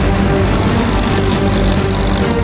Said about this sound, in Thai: ใช้เจ้าเรือซิ่งลำนี้แล่นให้เราดู